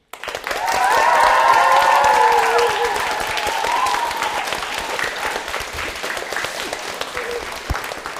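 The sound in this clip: Cheering and clapping from a school class at a secondary school in Plauen: a loud burst of whoops and shouts rises over steady applause at the start, then the clapping carries on unbroken and eases slightly toward the end.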